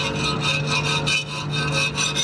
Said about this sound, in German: Lisa Marie Heyer klemmt ein Stück Metall in den Schraubstock und bearbeitet es mit einer Feile.